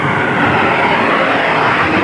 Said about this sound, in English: the Blue Angels now finishing the diamond formation, all six aircraft completing a loop.